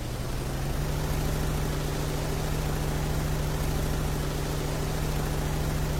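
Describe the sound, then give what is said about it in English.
A boat engine in the video game Free Fire drones steadily as a loud, dense roar with a constant low tone underneath. There are no voices. “Free Fire Boat.”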